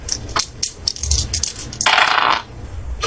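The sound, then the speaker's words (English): Percentile dice are rolled in a tabletop role-playing game, giving a few sharp clicks and then a longer burst of clattering rattle before settling. “You roll... the percentile dice under your current sanity.”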